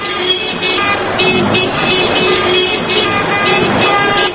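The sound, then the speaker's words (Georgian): Car horns blare in a protest car convoy driving through central city streets over fuel prices. Several steady, overlapping honks sound loudly and continuously for the whole stretch, backed by a low engine and traffic rumble. “აქტივისტებისგან შემდგარმა საავტომობილო კოლონამ თბილისის ცენტრალური ქუჩები ხმოვანი სიგნალების თანხლებით შემოიარა”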